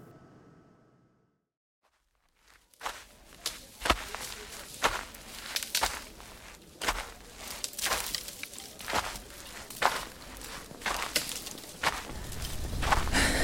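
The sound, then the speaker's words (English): Footsteps of a person hiking on Cheyenne Mountain toward the Will Rogers Shrine of the Sun: after a few seconds of near silence, many crunchy steps follow at a steady, even pace. “I'm currently hiking to the Will Rogers Shrine of the Sun.”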